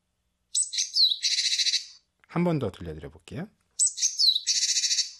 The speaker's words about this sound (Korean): 이 책의 뒤에 보면 네. 박새 소리 몇 가지를 들을 수 있는 QR코드가 들어있어요.